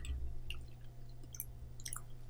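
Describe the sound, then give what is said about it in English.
Faint wet chewing as a piece of cinnamon is mashed between the molars, a few soft squishy crunches spread over a couple of seconds above a low steady hum. “Mashing it with your molars brings everything out.”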